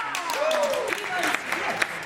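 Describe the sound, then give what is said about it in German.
Warm applause welcomes the crew of the Tosca to a sea-shanty contest on Christmas Eve, a steady patter of clapping that continues throughout with voices audible over it. “Begrüßt mit mir mit einem warmherzigen Applaus die Besatzung der wunderbaren, weitgereisten, weltberühmten Tosca!”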